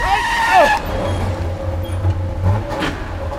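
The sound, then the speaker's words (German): A car driven by a woman speeds straight toward someone on foot near a wall, its engine droning steadily and loudly, with brief squealing tones near the start. “Ich bemerkte nicht sofort, dass das Auto direkt auf mich zufuhr. Der Wagen beschleunigte.”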